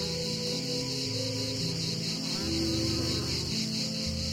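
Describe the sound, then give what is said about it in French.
A grey cicada singing: a continuous, dense, high buzzing drone with a steady rhythmic pulsing that holds at the same level throughout. “Voilà le paysage sonore de l'été par excellence. Lorsque la cigale grise chante, on l'associe à la pinède, aux oliviers, à la chaleur.”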